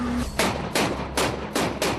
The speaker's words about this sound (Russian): «Буцефал» отправляется на войну для нанесения огневого удара по позициям полка «Азов». Будем присутствовать при стрельбе.